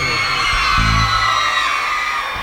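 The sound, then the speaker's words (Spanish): Women in the audience at a live night show in Salta shout and whoop together, a dense, steady wall of loud crowd cheering that holds for the whole moment without a break. “A ver el grito de las mujeres solteras esta noche.”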